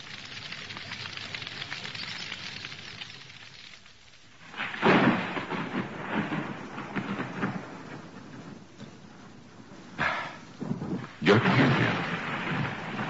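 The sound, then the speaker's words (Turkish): Rain grows heavier as a radio-drama sound effect. A steady wash of noise swells into a louder, denser downpour partway through, with crackling bursts and sudden surges later on. “Alem yağmur yağacak. Yağmur hızlandı. Epeyce ıslanacağız herhalde.”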